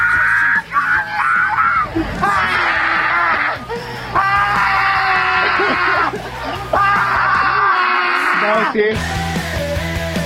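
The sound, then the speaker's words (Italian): Loud, shrill screaming and yelling from a Roma woman in a played recording. Long, sustained, strained cries come in repeated bursts with a short break near the end. “Senti come urla!”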